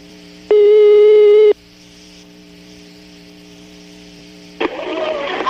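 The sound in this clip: A phone call being dialed: a single loud, steady electronic tone lasts about a second over a constant low hum, then a burst of line noise follows.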